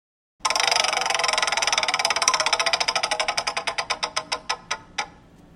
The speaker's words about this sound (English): So what we're going to do, Kevin, is we're going to spin our wheel, and we're going to get you a category